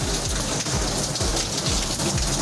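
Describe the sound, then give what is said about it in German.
Heavy water pours down like rain inside a university physics building with a leaking structure, making a dense, loud, continuous hiss without voices. “Das hier hat ein Studi vor 4 Jahren gepostet. Es regnet aus dem Physikgebäude.”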